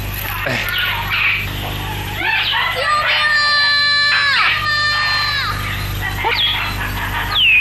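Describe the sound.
A child cries in long, high, wavering wails, loud and sustained, with other voices speaking and shouting around the crying.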